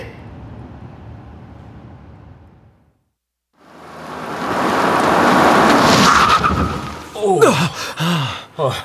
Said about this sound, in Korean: 저 갑자기 자전거가 끼어들어서. 손님 괜찮으세요? 네. 잠드셨던 것 같은데 급정거에서 놀라셨죠?